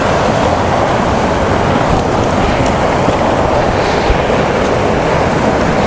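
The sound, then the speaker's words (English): Continuous rushing roar of a waterfall mixed with wind, loud and steady throughout with no break and no voices. “Oh boy, the roar of the wind of that waterfall is really good for keeping the midges away down here.”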